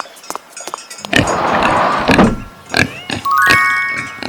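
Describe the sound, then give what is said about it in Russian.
Pig grunting and squealing, a long, rough, loud burst followed by several short, snorting grunts separated by brief gaps. “Свинья.”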